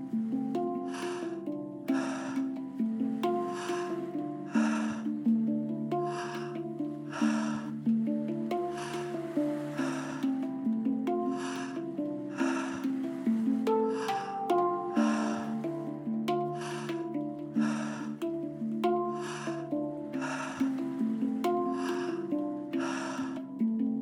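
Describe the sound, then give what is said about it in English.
Fast, forceful tummo breathing repeats as many sharp, noisy breath bursts in a quick, steady rhythm for the whole span, set against a constant low tonal hum. “Continuing to breathe fully and deeply, building energy within your body.”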